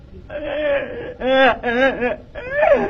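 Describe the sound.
A child cries in high, wavering wails and whimpers: four drawn-out voiced bursts with short breaks between them, with no other voices.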